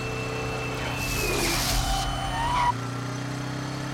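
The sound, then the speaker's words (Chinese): A car's tires skid across the road over a steady engine drone, with a broad scraping rush in the middle and a short, high squeal rising just before it cuts off. “哎，当心有车来。”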